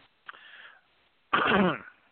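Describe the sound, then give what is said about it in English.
Throat clearing in two rough, breathy bursts: a short, faint one first, then a louder, longer, gravelly one, with nothing else around them. “Clearing my throat because I have a few things to say.”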